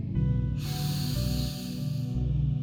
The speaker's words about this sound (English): Let's do this one more time. Deep breath in.